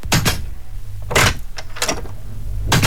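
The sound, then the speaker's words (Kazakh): A door is handled and shut, heard as a few soft swishing thumps spread over about three seconds, with no voices. “Естіп тұрсың ба? Нені? Сол ғой, тым тырыс. Двери Ситидің сенімді әрі сапалы есіктері.”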